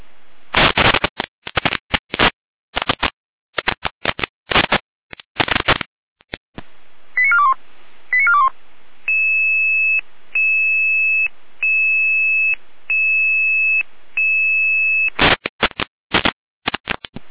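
Emergency dispatch alerting tones from a Red Cross rescue-service control center: loud bursts of buzzing, beeping pulses, then a steady repeating pattern of alternating two-pitch tones, then the rapid bursts return at the end.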